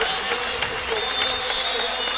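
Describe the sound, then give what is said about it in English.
A wrestling crowd gives a standing ovation to a four-time Indiana state champion, steady clapping and cheering noise that holds level throughout while a commentator talks over it. “Standing ovation from this crowd.”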